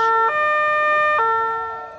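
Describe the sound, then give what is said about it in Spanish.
A siren sound effect plays during a football match commentary: a loud electronic wail that steps between two steady pitches, alone and fading slightly at the end. “La sirena, insisto, vale para la defensa del Huesca, ¿eh? En ocasiones.”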